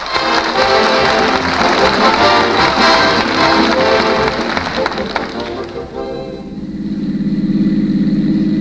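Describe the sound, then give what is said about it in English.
A car driving on its way to a CBS studio: a loud, broad rushing wash that suddenly drops away to a steadier, low engine hum. “And here is what happened as they drove to the CBS studio on the way to the 2 hours of stars.”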